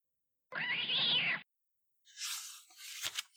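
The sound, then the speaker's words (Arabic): A frightened cat named Bo yowls after being startled awake from deep sleep by a loud noise. One drawn-out, moderately loud meow is followed by silence, then scuffling and rustling. “اقترب منه نيفو بهدوء شديد ثم اطلق صوتا عاليا فافزع القط المسكين بو”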